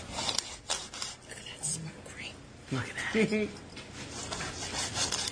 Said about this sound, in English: This is the brisket that I actually physically made during Labor Day weekend. So here you go. I know, it's... Here's my wife cutting it up.